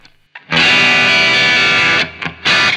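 Screechy, bright distorted electric guitar tone through an amp with the treble turned all the way up, played on a Telecaster: a long sustained harsh chord rings out, then brief bursts and a final loud strum.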